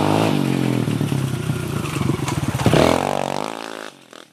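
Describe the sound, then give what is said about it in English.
A Kawasaki KLX 140 dirt bike engine runs loud and steady, then revs harder with a rising, pulsing pitch before cutting off abruptly near the end. “The KLX 140 is one of my favorite dirt bikes for a variety of reasons”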